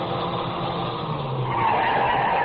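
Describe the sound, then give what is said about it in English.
A car comes over a rise on a rough road at night, its engine whining as the tires skid in a steady hissing rush that grows slightly louder toward the end. “I heard the whine of a car coming over the rise in the rough road as the first glimmer of a headlight stabbed the darkness.”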